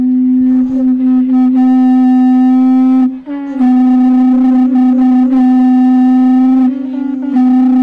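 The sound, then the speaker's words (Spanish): Conch shell horns blowing at a religious procession for the descent of a Virgin statue: loud, steady, sustained horn tones rich in overtones, in two long blasts separated by a brief break just after three seconds. “quiero despedir esta conexión con esos bucios sonando”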